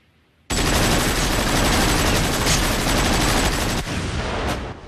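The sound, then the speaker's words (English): Machine gun fire sprayed freely around a room, a loud, dense, continuous rattle that starts abruptly after half a second and keeps going without a break to the end. “She fires freely around the room, clearing a piano top of its ornaments”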